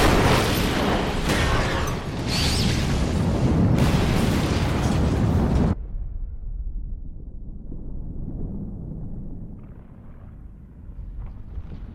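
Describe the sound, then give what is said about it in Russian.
An explosion in a film scene, heard as a loud, dense roar for about six seconds that cuts off abruptly into a quieter low rumble with faint crackling. “Происходит взрыв.”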